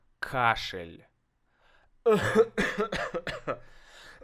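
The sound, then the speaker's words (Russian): A person coughs deliberately, giving a string of short, harsh coughs after a pause, with the rhythm uneven and the bursts loud against the quiet gaps. “Это кашель. Да, я что делаю? Я кашляю сейчас. Я кашляю.”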